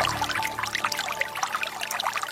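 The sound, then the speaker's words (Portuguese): Holy water gushes and trickles from a spring at a shrine in a continuous splashing stream. The sound stays steady and bright throughout, with no voices. “A água que jorra da fonte do Senhor Bom Jesus.”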